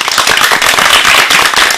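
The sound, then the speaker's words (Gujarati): Loud, dense clapping from an audience at a children's program, many hands beating quickly in a busy, crackling wash that stays strong throughout. “આ તાળીઓના ગડગડાટને વધારવા માટે તૈયાર છો ને?”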